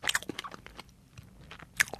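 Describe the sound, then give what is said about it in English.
Crisp biting and crunchy chewing of a large, substantial old-school mince pie: several sharp crackling crunches at an irregular rhythm, with quieter chewing between them and no talk. “So after looking around your office at the BBC and seeing all these kind of mass-produced little mince pies, what you're tasting now,”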